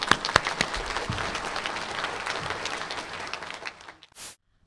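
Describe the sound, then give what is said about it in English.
Audience applause: many hands clapping in a dense, continuous patter that gradually thins and fades away near the end. “I think God would like us to welcome her. Let's put our hands together.”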